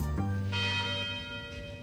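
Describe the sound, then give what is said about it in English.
Tower chimes ring out from a university bell tower, a few struck tones blending into a sustained, overlapping ring of steady pitches that carries through the whole stretch without any talk. “The University Tower chimes ring in another session of Ask the Professor”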